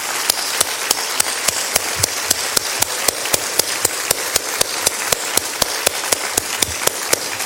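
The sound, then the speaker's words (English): An audience applauds a group of ladies. Many sharp, evenly spaced claps beat out a quick steady rhythm over a continuous wash of crowd clapping. “Let's stand. Let's give these great ladies a wonderful hand. Come on, audience.”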